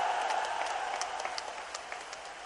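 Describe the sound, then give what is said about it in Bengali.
Loud applause from an audience at a political gathering in Kishoreganj: a dense, steady clatter of many hands clapping together that slowly eases off toward the end, with no speech over it. “একটা জোরে হাততালি দেন আপনারা দয়া করে একটা।”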